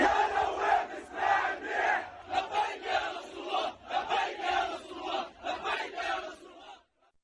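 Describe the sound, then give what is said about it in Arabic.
A crowd chants for President Salam in loud, rhythmic bursts of massed voices, the repeated slogans rising and falling in waves before cutting off abruptly just before the end. “إشارة إلى أن الجمهور الحاضر وجه هتافات خاصة إلى الرئيس سلام.”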